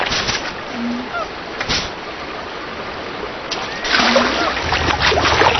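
Splashing and sloshing water effects from a video game character swimming across a river, a continuous noisy wash that turns louder and busier partway through.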